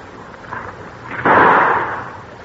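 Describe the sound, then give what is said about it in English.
A single gunshot from a hammer-cocked gun fired at a tree: one sharp, muffled report past the midpoint, trailing off in a short decaying rumble after a quiet lead-in. “throws back the hammer, and trips it. There, I've got it cocked. Are you ready? All ready. Here goes. Oh, I shot way over it. The barrel kicked up. I'm going to shoot again.”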